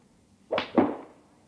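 A golf club is swung twice in quick succession, each swing a short airy whoosh, the second slightly louder and trailing off longer, alone against a quiet background.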